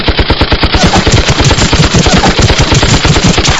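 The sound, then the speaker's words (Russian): Automatic machine-gun fire in one sustained burst: rapid, evenly spaced, loud shots rattle without a pause for several seconds. “Но не успел прицелиться, как раздалась еще одна очередь.”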